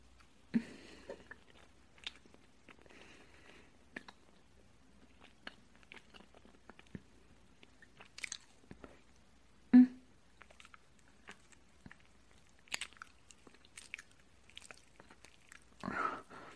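Someone chews and eats food that is being fed to them: soft, sporadic wet mouth clicks and smacks, quiet and intermittent, with no talking.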